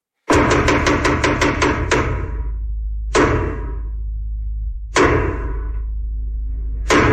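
Heavy knocks on a theatre stage floor, the traditional signal before a play begins: a quick run of many even blows, then slower, widely spaced single strikes, each loud and booming with a low, lingering resonance.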